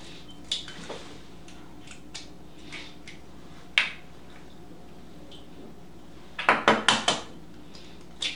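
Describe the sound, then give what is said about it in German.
Three eggs go into a bowl of grated potato, flour and onion: scattered light kitchen clicks and taps, then a quick cluster of several sharp knocks near the end. No one talks. “Jetzt haben wir unsere zerriebene Kartoffel, Mehl und Zwiebeln. Und jetzt darf man rein drei Eier.”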